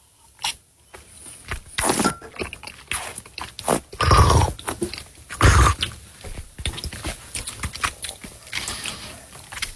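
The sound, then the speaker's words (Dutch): Air slurped through a mouthful of wine during a tasting, several loud, gurgling draws in short bursts, with smaller wet mouth noises between them. “En dan een beetje lucht aanzuigen.”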